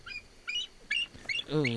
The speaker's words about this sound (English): That's the cry of the bald eagle as it preys upon Rupert Murdoch's eyeballs.